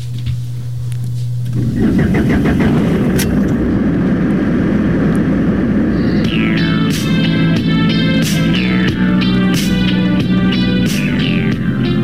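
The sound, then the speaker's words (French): An old car with worn-out shock absorbers is driven at night through a port district of warehouses. A low hum gives way to a loud, continuous engine roar after about two seconds. “Les vitesses craquent et les secousses trahissent des amortisseurs au bout du rouleau.”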